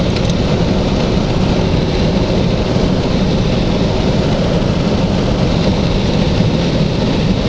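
Steady road noise from a car driving along a road with no lane markings: a constant, dense roar of engine and tires with no change in level, loud and unbroken, with no talk.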